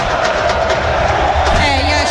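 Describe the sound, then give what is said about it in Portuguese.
Vasco football fans cheer in the stadium during a match against Mirassol, making a loud, steady, dense crowd roar that holds without a break throughout. “E a torcida do Vasco acordou”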